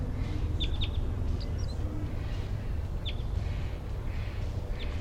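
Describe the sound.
A wild bird chittering: several brief, high, thin chirps scattered over a steady background hiss, fairly faint and irregularly spaced.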